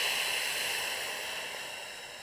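A long breath pushed out through pursed lips, heard alone as a steady airy hiss that slowly fades.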